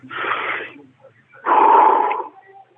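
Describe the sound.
Strong, deep inhalations: two loud, rushing breath sounds separated by a short pause, the second slightly fuller and longer.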